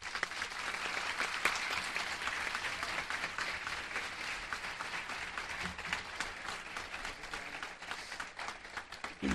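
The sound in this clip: Audience applause welcoming a speaker at a debate event, a dense, even clapping that stays steady through the whole stretch.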